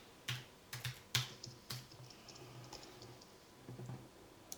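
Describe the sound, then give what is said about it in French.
Typing on a computer keyboard: a few sparse, faint key clicks, some in quick pairs, tapping over a low background hum. “Bon, et alors tu vas taper Black Belair, créateur de podcast.”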